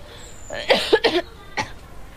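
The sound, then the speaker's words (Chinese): A child coughing from cigarette smoke: a quick cluster of short, harsh coughs, then a single further cough after a brief pause, with no talk over them. “哎呀，你不要抽了吧，娃呛的”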